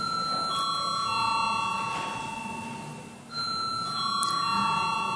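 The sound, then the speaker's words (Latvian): Electronic bell ringing to call members of parliament to a vote, a steady high ringing tone that drops out briefly near the end and then resumes. “Lūdzu zvanu.”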